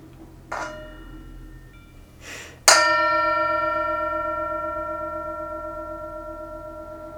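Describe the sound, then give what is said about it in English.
A Tibetan singing bowl is struck. A couple of soft taps lead into one firm strike that rings out as a clear, shimmering metallic tone, which sustains and slowly fades over several seconds. “As always on Fresh Green Blessings, we invite you to enjoy the sound of the Tibetan singing bowl, to be present with the bell. Here's the sound of the bell.”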